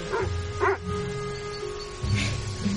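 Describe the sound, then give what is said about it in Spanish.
A dog barks outdoors by an estate path: a few sharp, yelping barks spaced apart, with faint steady tones and a low hum underneath. “¿Tienen algún problema de perros salvajes en la mansión?”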